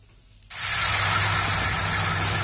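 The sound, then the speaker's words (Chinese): A large combine harvester working at full power in a rapeseed field in Anhui, China: a loud, steady engine roar with broad hiss that starts abruptly after a brief quiet moment and holds even to the end. “在安徽黄山市歙县镇村镇梅村的油菜田里，大型收割机正开足马力穿梭作业，一笼笼油菜被快速卷入机身”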